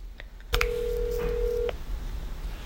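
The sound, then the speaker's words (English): A telephone call being dialled and ringing: a click, then a single long, steady ring tone lasting about a second before it cuts off, over faint background hiss. “She texted me she wanted to talk, so I'm calling to check in.”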